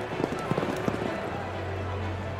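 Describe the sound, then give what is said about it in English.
Hoofbeats of racehorses galloping off at the start of a race, with mounted spectators riding behind: several quick clops in the first second, then a steady low drone. “As the starter lowered his flag, the horses raced off, with the spectators who'd ridden out to see the start riding along behind them.”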